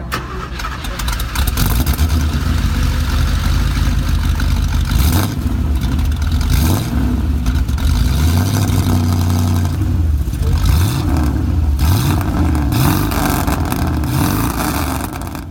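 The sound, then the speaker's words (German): A car engine cranks and catches, then revs repeatedly over a loud, continuous roar, its low tones sweeping up and down through several throttle blips. “Leider nicht vom Originalauto, aber so oder ziemlich ähnlich muss er damals geklungen haben.”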